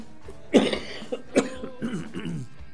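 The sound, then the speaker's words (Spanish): Coughing from a person irritated by perfume: a few dry, sharp coughs in uneven bursts, the loudest near the start, trailing into softer throat sounds. “Disculpen, que acá tenemos un lanzador de perfume que lo tengo encima y me hace re mal. Bueno, así que cada tanto yo le haré una tosecita.”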